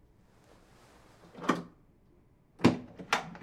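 A door being opened, heard as three short, dull clunks, one alone and then two close together, against a quiet background with no talking.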